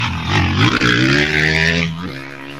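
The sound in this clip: Racing car number 11, painted green, accelerating hard away from the start line of a road race: a loud engine roar whose pitch climbs steadily before it shifts and drops near the end.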